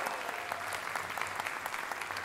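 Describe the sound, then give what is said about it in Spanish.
Audience applause at an evening show as the host greets the crowd, a dense, steady clapping that keeps an even level from start to finish. “Un aplauso para ustedes, que sigue el aplauso para ustedes, por favor, venga.”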